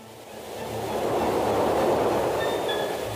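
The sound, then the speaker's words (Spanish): A train approaches during a fishing outing by streams. Its broad rumble swells steadily louder over the first couple of seconds, then holds at a loud, even roar with no voices. “¡Viene el tren!”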